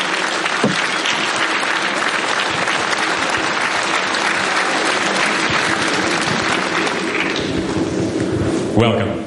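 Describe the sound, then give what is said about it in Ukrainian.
Audience applause at a summit in Kyiv, loud and continuous clapping from a large crowd that holds steady throughout. “Вітаємо у Києві, вітаємо на цьому саміті. Дякуємо, що ви сьогодні з нами. Це дуже цінно для всіх нас. І ще раз, будь ласка, аплодисменти.”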